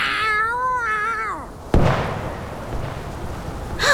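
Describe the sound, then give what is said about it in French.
A female cat fighting for survival lets out a loud, drawn-out yowl that wavers and falls, then a sudden sharp gunshot cuts in, followed by noisy rustling and another short burst at the end. “T'as jamais vu une chatte qui se bat pour sa survie?”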